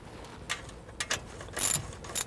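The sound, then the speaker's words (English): Ratchet wrench clicking in a few short bursts while bolts are loosened on both sides of a housing, opened up to reach its filters; the ratcheting is brisk and bright, separated by brief pauses, with no talk. “we're going to take these bolts out on both sides, the one on this side, one on the back side here”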